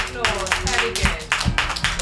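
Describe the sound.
A group applauds a correct answer in a Halloween quiz with steady, dense hand clapping that carries loud rhythmic bursts throughout.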